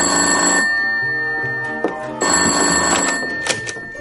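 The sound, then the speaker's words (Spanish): Telephone ringing in an office: a loud electric bell rings in repeated long bursts separated by a short pause, steady and metallic, with no voices. “rosa atiende el teléfono en la oficina”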